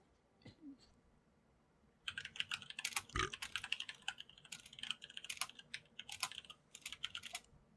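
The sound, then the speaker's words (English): Rapid typing on a computer keyboard: many crisp key clicks in an irregular, busy rhythm that starts after about two seconds of near quiet and continues steadily to the end. “What are you, typing a paper over there?”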